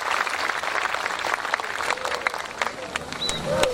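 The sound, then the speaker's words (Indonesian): Applause from a crowd at an event in Semarang: a rapid wash of clapping that stays fairly even, with a few voices rising faintly over it near the end. “Tepuk tangan untuk Semarang.”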